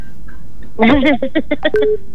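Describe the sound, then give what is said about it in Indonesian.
Telephone tones sound as a call comes in during a live session: a quick series of short electronic beeps, ending on a steadier held tone. “Oi, ada yang gabung, ada yang telepon ya.”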